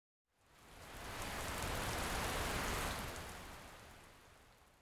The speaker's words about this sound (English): Rainy. Rainy. Rainy.